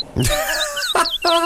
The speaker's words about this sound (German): Zwei Vögel fahren in Australien täglich mit dem Zug zu ihrer Futterstelle.